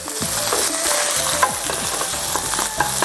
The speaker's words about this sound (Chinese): 肥肉入锅以后微微的煸炒一下，它就开始出油